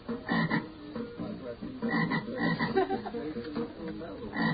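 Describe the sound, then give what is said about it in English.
Bullfrogs croaking in a steady, overlapping chorus of low, throaty croaks that pulse on and off throughout at moderate loudness, with no voices. “Even if it's a lousy album, you don't put bullfrogs over the air for music.”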